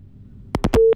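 A telephone line disconnects after a caller drops off: a few sharp clicks in quick succession, then a brief, steady, low beep tone, fairly loud against a quiet background.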